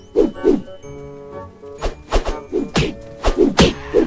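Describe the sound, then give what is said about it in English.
Heavy punch impacts in a video game land as a series of sharp thwacking thuds in irregular bursts, each a short punchy hit over a steady tonal backdrop. “now I can punch them from really far off”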